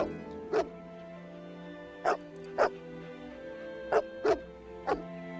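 Dog barking from a ground floor balcony: six short, fairly faint barks at irregular intervals, two of them close together, over a steady low hum.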